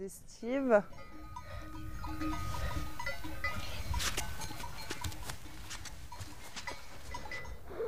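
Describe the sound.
A herd of livestock enters a stable in a mountain valley at 1500 metres: one loud bleat near the start, then a steady patter of hooves with scattered bell clinks.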